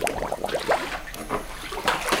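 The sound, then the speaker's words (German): Soft splashing and sloshing of clear water in a forest cenote as a person wades in, a few quiet, irregular splashes over a faint watery background. “Um zu erkennen, wohin Robby gleich abtaucht, gehe ich ins Wasser.”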